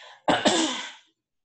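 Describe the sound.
Someone with a dry throat clears it in two quick, rasping bursts that merge into a short hoarse rush of air, then stop abruptly.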